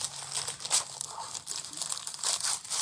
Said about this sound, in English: That's unwrapping a present.